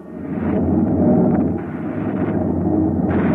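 A weapon firing, heard as a heavy, low roaring rumble that swells and holds for about three seconds without distinct separate shots.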